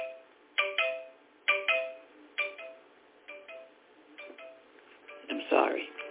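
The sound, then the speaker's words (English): A phone rings with a short, bright electronic chiming melody repeated in regular bursts, followed by a brief noisier sound at the end. “everybody starts to call when you start doing something. Phone cannot ring all day. Then you start doing something of importance. You can tell how important it is because everybody wants to call then. Let me stop that. Stop that.”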